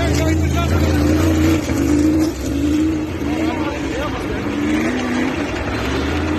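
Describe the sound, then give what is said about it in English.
Sprint car engines roar as the cars race on ice, a loud, continuous droning growl whose pitch shifts as they pass, with voices talking over it. “So what's that look like? It looks like sprints racing on ice.”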